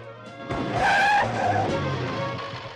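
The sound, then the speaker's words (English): Tyres skid as a motorbike brakes hard: a loud, harsh squeal with engine noise beneath it swells and lingers for a couple of seconds before easing off. “until he slams on his brakes”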